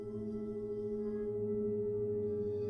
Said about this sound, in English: More tones from the singing bowls fill the room.